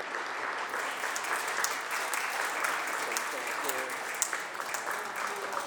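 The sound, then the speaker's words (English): An audience in a legislative chamber applauds Lieutenant O'Brien with dense, sustained clapping that holds steady for the whole stretch. A voice is briefly audible beneath it. “Again, welcome, Lieutenant O'Brien, and thank you for your service to the United States. Let's give him a hand again.”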